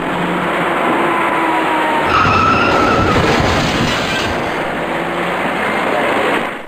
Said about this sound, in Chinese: 从后方快速驶来的一辆深色小客却毫无措施地猛然撞上了前面的面包车